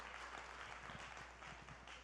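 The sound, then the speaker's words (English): Faint applause from an audience at a group table discussion, a brief, even patter of clapping that holds steady throughout. “All right. Round of applause right here.”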